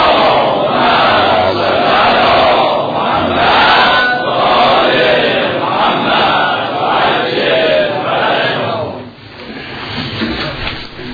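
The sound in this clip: A large crowd loudly chants salawat for Muhammad and his family. Many voices blend in a continuous, rhythmic unison swell that dips briefly near the end before rising again.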